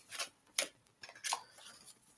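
Soft, papery swishes as a card is drawn from a Mother Mary oracle deck: a few short brushing sounds, faint and with no other sound.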